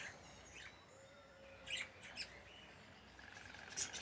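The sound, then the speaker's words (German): Budgerigars chirp at Jaderpark among many breeding pairs, giving a few faint, short high chirps and squeaks over a soft, steady background hiss. “Viele Wellensittichpaare bedeuten im Jaderpark auch viel Nachwuchs.”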